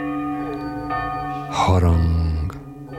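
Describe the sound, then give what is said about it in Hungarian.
A church bell tolls over a field, a few deep, resonant strikes with rich humming overtones that sustain and ring on between the blows. “mező felett haranggongás.”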